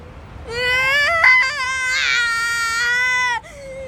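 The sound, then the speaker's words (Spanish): A baby cries in one long, loud, high-pitched wail lasting about three seconds, wavering slightly before cutting off abruptly. “Espera, amigo, no llores, ¿de acuerdo? No quiero cambiar pañales.”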